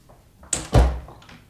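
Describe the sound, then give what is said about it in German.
A door being opened: a sharp latch click, then a deeper thud, followed by a brief fading rustle, with no talk. “Da ging die Türe auf und herein trat Frau Agnes, Dürers Weib.”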